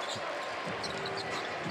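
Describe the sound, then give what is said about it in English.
A basketball is dribbled during an NBA game involving the Jazz. A few soft, low bounces thud beneath a steady wash of crowd noise. “Crossover dribble, drives at Branham.”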